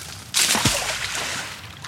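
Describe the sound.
A 250-pound-strength industrial magnet tied to a rope is cast into water for magnet fishing. It lands with one sudden, loud splash, followed by a short wash of sloshing and trickling.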